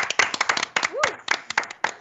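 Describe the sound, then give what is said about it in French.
Applause from a few guests clapping for themselves at the end of a debate segment: quick, irregular hand claps sound loudly and continuously throughout. “Alors d'abord, bravo à vous. Je pense que vous pouvez vous applaudir.”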